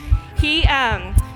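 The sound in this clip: Fetal heartbeat of an unborn baby boy set to music: soft low thumps repeat about every quarter second under a humming, gliding tonal line, with talk over it.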